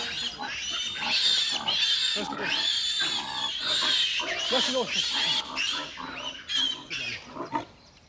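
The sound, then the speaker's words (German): Sows and piglets, the piglets heading out to pasture for the first time, make a dense, busy mix of high squeals and lower grunts throughout, with a few sharper bursts near the end. “Hauptsache, die Sauen marschieren in die richtige Richtung. Die Ferkel folgen sowieso.”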